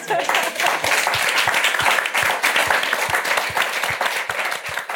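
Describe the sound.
Audience applause at a London Review Bookshop event, dense continuous clapping that holds steady and loud throughout, with sharp individual claps standing out.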